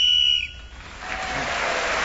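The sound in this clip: A short, shrill whistle blown to end a timed speaking turn in a panel game, a steady high tone lasting under half a second, followed by a wash of applause.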